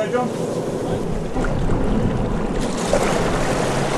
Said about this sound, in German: Wir chartern ein Boot und fahren bei schönstem Wetter zum Fischen hinaus in den spiegelglatten Hauraki-Golf.